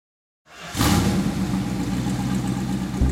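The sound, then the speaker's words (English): A 1969 Dodge Charger Daytona with a high-powered Hemi engine rumbles to life after a brief silence, settling into a steady, deep idle with a slight rise in revs near the end. “Willie's 1969 Dodge Charger Daytona was truly rare. It was one of just dozens outfitted with the high-powered Hemi motor, according to muscle car expert Joe Machado”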